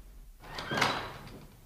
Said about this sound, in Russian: Может, дома нет? Дверь толкни.